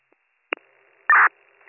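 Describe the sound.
A telephone busy signal after a call is dialed: a short click-like burst, then one steady, loud tone on a narrow phone line, fading back to quiet line hiss. No one speaks.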